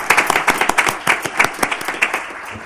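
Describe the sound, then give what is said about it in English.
Audience applause after a proclamation of Multnomah County Library Sesquicentennial Day in Portland: a dense, steady crackle of many hands clapping together, loud and sustained for the whole stretch. “So congratulations, and let's hear it for our library.”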